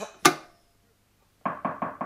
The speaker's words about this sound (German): Es hat geklopft.